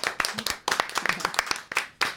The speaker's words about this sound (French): sous vos applaudissements également